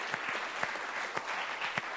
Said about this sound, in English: Let's give them a clap.